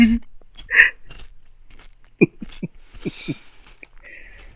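Crunching and chewing Halloween candy close up, with short bursts of crisp crunches and moist mouth clicks separated by brief silences.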